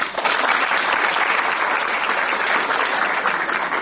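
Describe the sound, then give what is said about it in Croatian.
Steady applause from an audience at a school cultural event, dense continuous clapping that holds at an even, loud level from start to finish. “Jedan aplauz.”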